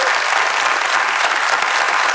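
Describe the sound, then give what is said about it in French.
Audience applause greets a new director joining the team: a steady, dense wash of clapping that stays loud and even throughout, with no pauses. “On l'applaudit.”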